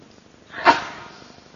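A single sneeze, a short, breathy burst that swells quickly and trails off, heard during a religious lecture, alone with no talk around it.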